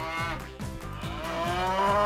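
A cow gives a long, low, drawn-out moo that stays loud and steady in tone for about two seconds, with no other sounds.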